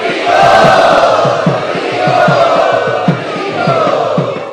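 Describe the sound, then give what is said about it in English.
A large crowd loudly chants in welcome of a featured speaker at a gathering at Chowpatty. The chant is sustained and steady, pulsing in a regular rhythm throughout. “And let us welcome him by loudly chanting.”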